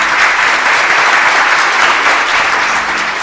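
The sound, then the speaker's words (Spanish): Loud, dense audience applause rolls on without a break, an even wash of clapping that keeps the same strength from start to end. “Nah, si van a aplaudir, aplaudirán con ganas.”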